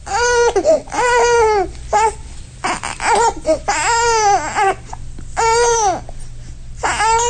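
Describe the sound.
A baby cries in loud, repeated wailing bursts: high, strained cries broken by short pauses, with babbling-like fussing sounds between them.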